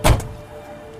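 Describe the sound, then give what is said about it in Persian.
A man gets out of a car and the car door shuts with one solid, heavy thunk, followed by a faint steady hum. “اسماعیل پیاده میشه و سمت خونه میره.”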